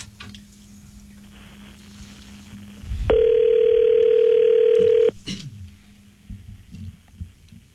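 A telephone dial tone plays while a call is being dialed: a loud, steady single-pitch tone lasting about two seconds mid-clip, framed by faint hum and a few soft clicks before and after.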